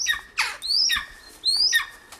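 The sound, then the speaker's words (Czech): Golden eagles call in an aviary: a few shrill, high-pitched yelping calls, some sliding sharply upward, come in separate bursts with short quiet gaps between them. “Tady jsou 3 orly skalní, 2 samice, samec.”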